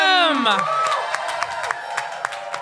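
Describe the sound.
An audience cheers and applauds as people are introduced at an event, with a loud whoop at the start followed by steady clapping and cheering.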